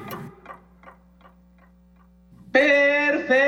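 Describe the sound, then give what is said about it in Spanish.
Game show timer clock ticks about six times at a steady pace over a low hum, each tick growing fainter. A sudden loud, bright harmonic tone then blares out and holds. “Tiempo al reloj. El tiempo va pasando.”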